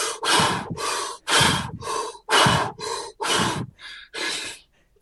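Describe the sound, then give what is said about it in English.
A person breathes deeply and as fast as possible, many loud, rapid, forceful breaths in an even rhythm, alternating inhales and exhales roughly twice per second, with no talking. “I want you to do 15 really deep breaths as fast as you possibly can right now.”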